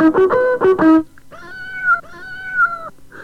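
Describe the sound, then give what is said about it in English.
A cat meows at the end of a signature tune: a short run of bright tune notes, then two drawn-out, wavering meows. “She pricks up her ears at the meow at the end of the signature tune.”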